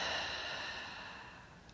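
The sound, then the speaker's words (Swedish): A slow, deep exhale through the mouth during a guided breathing exercise: a soft, airy rush of breath that gradually tapers away over nearly two seconds, faint and without talk. “Och släpp långsamt ut andetaget genom munnen.”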